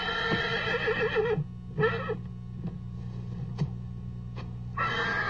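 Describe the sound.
A horse whinnies in a dubbed film scene, giving loud, shaky, high neighs at the start, again briefly midway and once more at the end, with a few faint knocks between.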